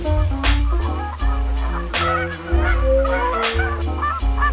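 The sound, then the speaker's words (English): Giant geese, large prairie birds, give loud, repeated nasal honks in an uneven series, with overlapping calls and no other sounds. “Let us hope that these wonderful birds continue to thrive, and that in the years to come, the prairie skies will resound with these familiar calls of the giant”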